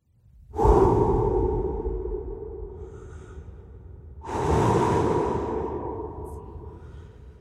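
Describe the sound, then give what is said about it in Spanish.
Deep breathing: two long, airy breaths, each rising with a soft whoosh and slowly tapering away, with no talking. “Cuando respiro profundo, recuerdo que hay un equilibrio entre lo que doy y lo que recibo. Inhalo oxígeno.”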